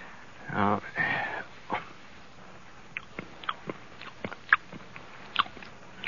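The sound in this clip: A spoon dipping into a jar of food for a taste, heard as a brief muffled voice followed by many faint, scattered clicks and scrapes.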